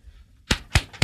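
A man slapping his own arm muscle makes three sharp, loud smacks, evenly spaced in quick succession after a moment of faint low hum.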